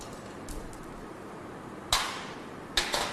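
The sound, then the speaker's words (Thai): The last screw of a plastic cover being removed, heard as two sharp, crisp clicks in the second half, with a few faint ticks earlier on. “ทำการถอดน็อตฝาครอบตัวสุดท้ายนะครับออก”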